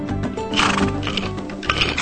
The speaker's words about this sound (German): So, komm schon. Ruhig, ganz ruhig. Hm? Nun sei schon brav, mein Pferdchen.